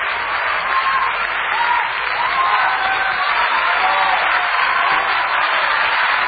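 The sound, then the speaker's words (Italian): Sustained audience applause late at night on an Italian show, a continuous, even roar of many hands clapping that neither builds nor fades. “Quanti applausi a quest'ora, eh? A quest'ora, che convincimento, che convinzione. Ma dai, applaudono per stare svegli, Pippo.”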